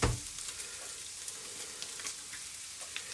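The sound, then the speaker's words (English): Sizzling of an egg frying in beef in a pan: a steady, crackling hiss with a brief louder burst right at the start, no voices. “you're going to break the eggs basically just into the beef. So as if you're going to fry the eggs in it, which is kind of what you're going to do. So I'm going to put 2 eggs in here. And goes the first one.”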